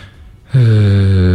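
A human yawn: after a short near-silence, a loud voiced drone begins abruptly and holds at a steady pitch to the end.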